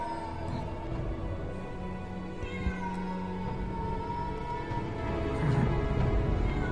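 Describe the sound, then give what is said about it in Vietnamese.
A black cat meowing in the night, a fairly faint, drawn-out, wavering cry that stretches across the whole stretch without any talk over it. “Con mèo đen cũng chạy đi xa, chỉ còn lại tiếng của nó kêu văng vẳng trong màn đêm ghê rợn.”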